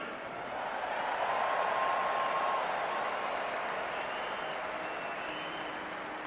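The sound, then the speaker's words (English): Stadium crowd in the Purple Nation cheering and applauding to welcome a former all-pro tight end, a dense, fairly faint wash of clapping and crowd noise that swells early, holds, then eases slightly. “Ladies and gentlemen, how about a Purple Nation welcome for Mr. Joe Sensor?”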